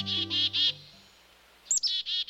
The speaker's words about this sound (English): The image of this dapper black-capped chickadee frequently adorns holiday cards and bags of birdseed.